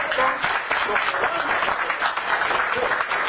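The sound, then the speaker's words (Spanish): An audience applauds at a business seminar, with dense, steady clapping that stays loud from start to finish and some voices mixed in. “Eso, fuerte aplauso todos ustedes.”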